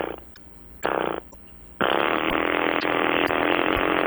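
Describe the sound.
A string trimmer's small engine starting: two short sputtering bursts cut out, then the engine catches and runs steadily with a loud, buzzy, rasping drone.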